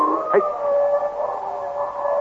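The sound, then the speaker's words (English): Wolves howling on a frozen, snow-crusted lake: drawn-out, overlapping mid-pitched howls hold steady throughout, with a short, sharp yip-like note early on. “The wolf is not heavy. He can run on the crust.”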